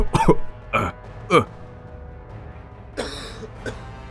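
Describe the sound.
A weakened man coughs in harsh, short bursts: three loud coughs close together, then a pause and two weaker ones.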